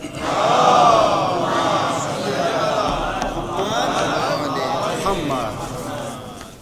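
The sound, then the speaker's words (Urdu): A crowd at a religious gathering loudly chants a welcome slogan in unison. Many voices merge into one long shout that swells early and then holds steady to the end. “باواز بلند نعرہ استقبال۔”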